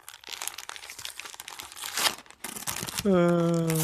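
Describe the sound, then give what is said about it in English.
Wrapping paper is unwrapped, crinkling, crumpling and tearing in quick irregular rustles for about three seconds, with a louder rip near the end. “Do you hear that? That's the sound of unwrapping an amazing short story for you all today.”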